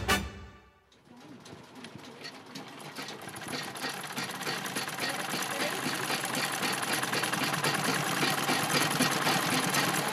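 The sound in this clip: A sewing machine stitches a colourful dress, its rapid, steady whirring starting after a short pause near the first second and running on continuously, growing slightly louder.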